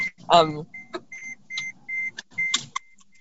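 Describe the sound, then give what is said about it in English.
A car's seatbelt warning beeps as a run of short, high electronic tones at an even pace, with someone talking over the sequence. “put your seatbelt on and it will stop beeping.”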